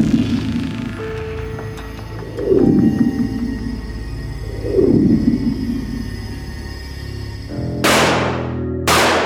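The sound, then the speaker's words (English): .44 Magnum gunshots ring out as loud, sharp bursts, with the strongest shots near the end over a low rumbling background. “Did you just shoot me? Did you just really shoot me?”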